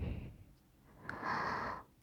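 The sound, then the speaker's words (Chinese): Forceful breathing while a very strong smell is being inhaled: a low rumble fades, then one airy, breathy rush about half a second long swells and subsides. “用力，用力呼吸，”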